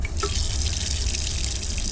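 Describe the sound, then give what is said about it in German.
Tap water runs into a small washbasin in a night-train compartment as hands are washed: a steady, even rush of water throughout, with a few faint drip-like tones at the start. “Erstmal Hände waschen.”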